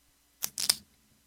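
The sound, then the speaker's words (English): Writing a name down: a few quick, scratchy strokes packed into under half a second, heard alone with no talk. “let me write Dante's name down here just a minute.”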